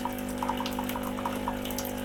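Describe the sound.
Hot water runs from a Nivona 791 coffee machine into a mug of about 270 ml, a steady humming drone under a continuous light trickling splash, fairly quiet and without voices.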